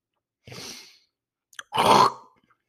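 A person coughs and clears their throat in two rough bursts. The first is short and moderate, and after a brief gap and a small click comes a louder, longer throat-clearing that fades out.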